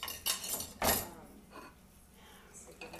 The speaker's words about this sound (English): I'm just trying to clean my kitchen.